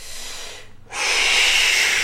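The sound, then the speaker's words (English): Breathing during a breathing exercise: a breathy hiss, a brief near-silent pause, then a louder, steady breath sound held to the end, with no speech. “Hold it there and breathe.”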